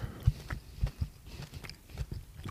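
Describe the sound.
Chewing of a fairly dark, quite firm jelly doughnut topped with coarse vanilla sugar: faint, irregular munching with a few soft crunchy bites, heard alone.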